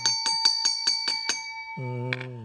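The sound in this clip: A small bell struck seven times in quick, even succession, each strike bright and ringing, followed by a sustained lower tone.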